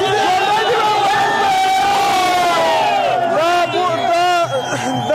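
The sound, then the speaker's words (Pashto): A crowd of youths and children chants slogans at night in Kabul, in front of the cricket board, celebrating a historic cricket win over Pakistan. Many loud voices rise and fall together in continuous, rhythmic shouts and cheers. “په پلازمینه کابل کې د کرکټ بورډ مخ ته تیر شپه یو شمیر ځوانان او ماشومان راټول شوي او د پاکستان پر وړاندې د کرکټ د تاریخي بری په خوشحالي کې ژوندې دی افغانستان شعارونه ورکوي.”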